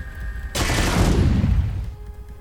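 Video game gunfire: one sudden, loud burst of shots that hits hard, then rings and fades away over about a second.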